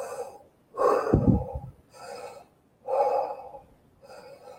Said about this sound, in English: if you need to wake up a little bit, just do some really, really more rapid deep breathing, like